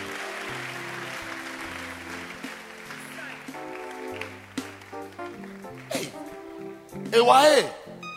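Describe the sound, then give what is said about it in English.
People clap their hands for a young girl in a home setting, a faint patter running under children's and adults' talk, with a short louder burst of voices near the end. “Come, clap your hands for her. Echoes, are you coming? Mommy. Good. Come. Keep clapping your hands.”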